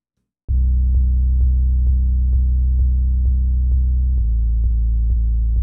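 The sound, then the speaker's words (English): A very deep sub bass tone laid under a song mix hums steadily with soft, evenly spaced pulses, dropping to a slightly lower note near the end. “And in the new version, I added a really, really low sub bass just to kind of soften it up and add sort of a floor of deep bass to it. Which sounds like this.”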